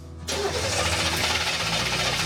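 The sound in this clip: Engine cranking as it tries to start after fuel was checked at the filter: a brief quiet moment, then a sudden, steady, loud churning drone that lasts about two seconds.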